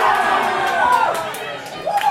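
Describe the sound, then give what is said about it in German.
Seattle Seahawks fans cheer and shout after an interception of a New England Patriots pass during an American football game, with loud voices rising in excited yells over crowd noise and talk. “Interception, Ballbesitz Seahawks und kurz darauf der nächste Jubelschrei.”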